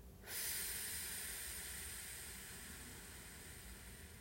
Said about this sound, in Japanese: 吐き切る笑顔です吐きます息吐いている時にこう力がふーっと抜けていくのを意識してみてください